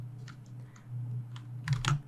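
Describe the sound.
Typing text on a computer keyboard: a few light, irregular keystroke clicks that cluster more densely toward the end, over a steady low hum. No one speaks.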